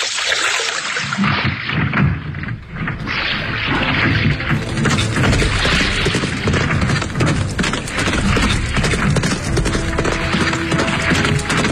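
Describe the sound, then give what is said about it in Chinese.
Radio drama sound effect of horse hoofbeats coming up from behind, a loud, dense run of pounding beats that keeps steady and continuous, layered thickly with other effect sounds. “杀手以为大功告成了，正要回去交令呢，忽听得身后传来了马蹄声响。”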